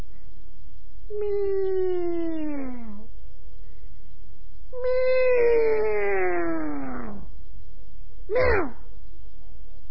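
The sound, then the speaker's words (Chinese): A voice imitates a cat meowing, done by someone hiding under a bed at night: two long, drawn-out meows whose pitch slides downward, then one short, sharp final call. “又学了几声猫叫”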